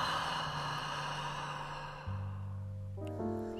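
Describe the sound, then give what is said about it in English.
A long, slow breath, drawn in through the nose and let out through the mouth, rushes steadily during a guided relaxation exercise over soft sustained tones, then fades away. “Counting to five, breathe in through your nose and exhale through your mouth.”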